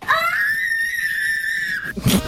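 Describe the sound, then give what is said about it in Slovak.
A boy screams with joy on finding an AC Milan pillow under the Christmas tree: one long, high-pitched shriek that rises at the start and holds steady for nearly two seconds. “Možno by ste neverili, ale to bola úprimná detská radosť. Aha. Môžem to na 100% potvrdiť, lebo to je môj syn, ktorý sa takto tešil, keď si našiel pod vianočným stromčekom vankúš AC Milano.”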